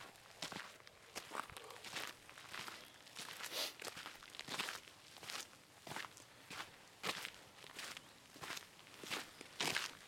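Footsteps of someone walking uphill through a forest: many steady, evenly spaced steps, each a short crunching impact, repeating alone without talk.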